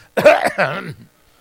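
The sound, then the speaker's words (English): A single throaty cough comes as two rough, voiced bursts close together, fairly loud and alone, followed by silence. “So what do? You cough.”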